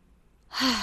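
A deep breath sighs out after near silence, one loud, airy breath that swells quickly and fades slightly.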